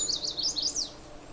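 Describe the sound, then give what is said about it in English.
A chestnut-sided warbler sings a short run of quick, high, sweet notes over a low steady background rumble. “The warbler is saying, "Please, please, please to meet ya." It's a chestnut-sided warbler.”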